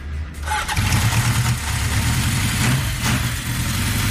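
A Honda CB750 motorcycle engine starts and settles into a loud, steady, rumbling idle that holds even throughout, with no voices heard.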